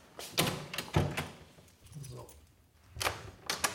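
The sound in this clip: A door in a historic building is shut and locked: a few sharp, hollow clunks and latch knocks come in bursts, with faint metallic rattling and a low voice between them.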